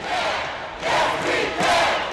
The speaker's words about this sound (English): And when Scott said he'd stand firm, much of the crowd broke into a chant.